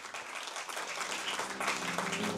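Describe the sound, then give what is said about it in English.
Applause from competition participants honouring top finishers at a results announcement, a steady dense patter of many hands clapping at moderate level, held evenly for a couple of seconds. “And in this spirit of fair competition, the participants warmly applaud those who achieved great results.”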